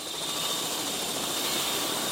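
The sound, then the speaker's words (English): A farm's private helicopter in flight gives a steady, loud rotor and engine drone, a constant broad roar with no breaks or changes. “Now I've climbed into the farm's private helicopter, and from the sky, it's hard to tell that these white blocks below us aren't buildings.”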